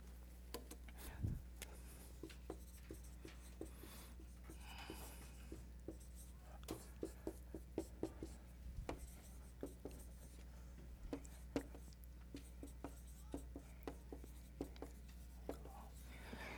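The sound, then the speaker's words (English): Drawing on a board during a lesson: many short, faint taps and scratchy strokes come in an irregular rhythm over a low steady hum. “let me draw this up i'm going to put it on the board but i'm also going to draw it up for you too”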